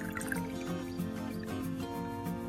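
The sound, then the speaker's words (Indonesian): Water, 600 ml of it, being poured in while cooking, a steady trickling and splashing that runs on throughout at a moderate level. “Kemudian kalian tambahkan air. Di sini saya menggunakan 600 ml air.”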